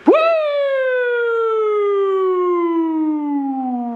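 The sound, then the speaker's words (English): A voice imitates an old police car siren with one long, loud wail that swoops sharply up at the start, then glides slowly and steadily down in pitch for about four seconds, sustained alone without other sounds. “Remember the cops would sneak up behind you? They had that nice soothing siren.”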